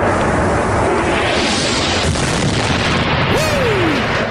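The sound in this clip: Outgoing artillery rocket fire during shelling of the Baba Amr neighborhood makes a loud, continuous booming roar that fills the whole clip without letting up.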